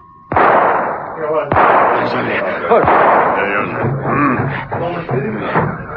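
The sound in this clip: Gunshots ring out during a chase on foot, heard as a few sharp, loud bangs spread over several seconds among shouting voices.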